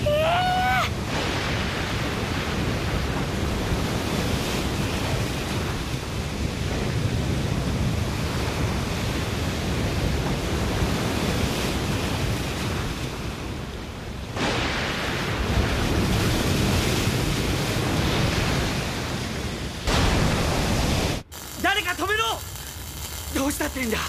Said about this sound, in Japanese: すでに大量の海水が流れ出しておる。